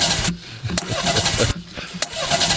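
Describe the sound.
An engine cranks over and over without catching, the vehicle out of gas, a loud steady churning whir broken by a few short pauses.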